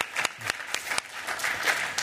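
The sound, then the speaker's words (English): An audience gives a round of applause for a person, steady clapping with a few sharper, louder claps standing out at fairly regular intervals. “give Jenny a round of applause”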